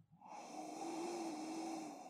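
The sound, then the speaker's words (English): A single deep, slow breath drawn in through the nose with hands cupped over it. The soft, airy hiss holds steady for about two seconds and stays quiet, with no talk. “Take some deep breaths in through the nose.”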